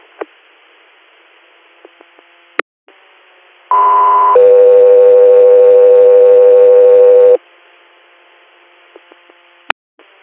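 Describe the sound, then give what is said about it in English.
Two-tone radio dispatch paging alert: a short higher tone of about a second, then a long, steady, lower tone of roughly three seconds, all over a constant bed of radio static with a few sharp clicks before and after. “standby for tones.”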